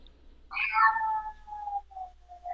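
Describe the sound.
A cat meows in one loud, drawn-out call with a bright, strained onset that trails off into a long, wavering tail. No voices are heard.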